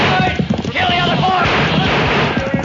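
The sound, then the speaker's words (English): A volley of gunfire from a radio drama ambush on a wagon: rapid, overlapping cracks fired in quick succession, with voices shouting throughout. “Use your gun! We got four of them with the first volley.”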